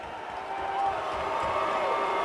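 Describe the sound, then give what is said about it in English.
Hockey fans cheer in an arena in Boston after a Game 7 Stanley Cup win, a steady, dense roar of crowd noise that swells slightly and holds without distinct claps. “And you can hear the Blues fans in the background in Boston.”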